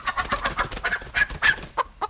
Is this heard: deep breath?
no